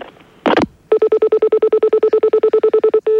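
Telephone dialing tones as the next call is placed: a short noisy burst, then a rapid, even run of many identical beeps, ending in a sustained tone.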